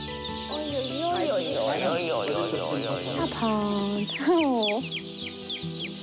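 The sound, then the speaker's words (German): Many young chicks peeping in a warm chick barn on a poultry farm, high, sharp chirps that often sweep downward and overlap, heard alongside people talking. “Ja, hier sind wir jetzt bei uns im Kükenstall.”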